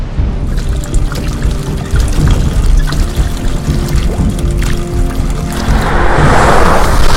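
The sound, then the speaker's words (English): Water overflowing a bucket in a town gushes and splashes in a loud, continuous rush. It turns brighter and more spattering near the end. “In the town, water starts to overflow a bucket.”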